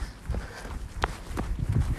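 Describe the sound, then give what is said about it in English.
Footsteps of a video game character jogging: a few soft, irregular thuds sit under steady background noise. “I'm actually just going at like a leisurely jog kind of pace.”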